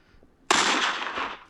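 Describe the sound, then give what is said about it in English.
A single loud pistol gunshot cracks out sharply after a brief quiet moment, followed by a long, dense, noisy tail that fades gradually over about a second, with no other sounds alongside it. “You shot me! Well, in fairness, I shot at you, but the bullet passed right through you.”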